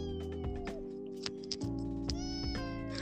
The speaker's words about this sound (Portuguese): meu tá gato aí? não para de miar.